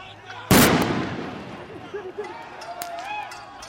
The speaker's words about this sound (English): The sound of tear gas fired by police in Nairobi today as the Kenyan capital is once again rocked by protests.